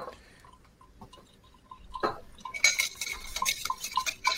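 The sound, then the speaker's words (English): Ice clinks against a mixing glass as a bourbon Manhattan cocktail is stirred, with many light, quick chinks and taps that get louder and busier in the second half. No voices are heard. “So we're going to take that and we're just going to stir it.”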